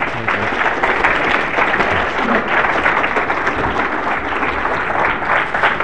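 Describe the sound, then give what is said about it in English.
Audience applause at a conference welcoming the final speaker, a pastor: steady, dense clapping that stays loud and even throughout. “So big hand for Pastor Corey McKenna.”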